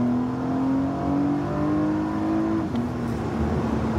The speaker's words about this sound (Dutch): Porsche Panamera 4S e-hybrid. Ja, veilige vierwielaandrijving.